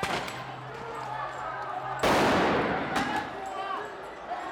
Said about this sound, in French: Bombe de désencerclement.